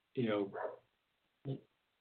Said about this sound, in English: Robin, are you hearing Louie outside? Oh. Woof. I'm going to apologize, but my dogs think there's a squirrel in the tree right outside my window today.